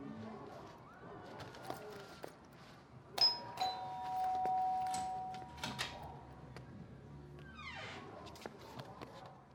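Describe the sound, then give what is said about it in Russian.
A doorbell rings at a neighbour's apartment door off a stairwell, giving a clear two-note electronic chime that hangs for a couple of seconds over a quiet background with faint scuffs and movement. “Передумав идти к своей, он звонит в соседнюю дверь.”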